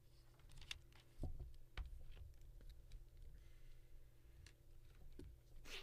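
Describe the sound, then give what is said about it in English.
Someone writes on paper with a pen, making faint, irregular ticks and light scratchy taps that recur unevenly, with no talk over them. “You're writing a lot over there.”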